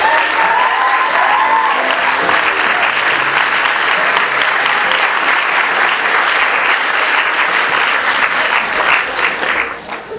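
Audience applause welcomes a film's writer-director to the stage: steady, dense clapping from a crowd that carries on evenly for about ten seconds before thinning out at the very end.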